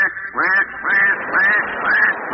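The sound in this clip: A human voice imitates ducks quacking on a duck hunt: four loud, nasal, evenly spaced quacks heard alone.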